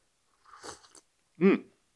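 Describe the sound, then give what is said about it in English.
A sip of English breakfast tea: a short, airy slurp followed after a brief pause by a soft voiced exhale, quiet and with no other sounds. “So I'm going to sip some tea.”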